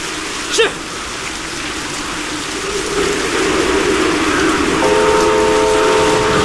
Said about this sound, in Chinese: 但这是个大雨天，恶劣的天气情况对几乎浸泡在水里的路基提出了更大的挑战。